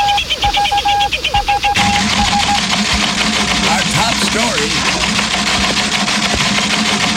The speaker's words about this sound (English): Could you turn down the teletype a little bit? I got breaking news here.